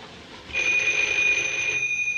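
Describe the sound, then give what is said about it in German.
A telephone rings in an office: one sustained, bright electronic ring of about a second that starts abruptly and then stops, heard alone over faint background hiss. “In Gastons Büro klingelt das Telefon. Niemand hebt ab.”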